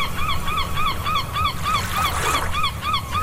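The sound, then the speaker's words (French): Seagull cries repeat rapidly and evenly, about three per second: short, harsh, nasal calls with a bent, wavering pitch, sounding loud over a rough, noisy background with no talking. “La mouette est un palmipède qui vit en poésie. Entre culture et confiture, comme Paul Verlaine, vous aurez entendu son cri.”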